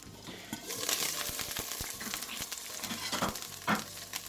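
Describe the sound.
Sizzling of two beef tenderloin steaks, three centimetres thick, frying in a pan: a faint, steady crackle and hiss with scattered sharp pops and no talk.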